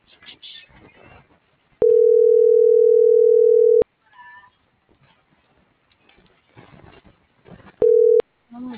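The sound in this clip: A ringback tone while a phone call is being placed: a steady, mid-pitched tone holds for about two seconds, then after a quieter gap a second tone is cut short. Faint background noise fills the pauses.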